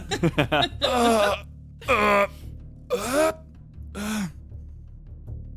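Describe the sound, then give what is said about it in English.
A voice imitating an old man groaning as he stands up: a few quick breathy grunts, then four drawn-out, strained groans separated by short pauses. “I stand up, making, like, old man standing up noises.”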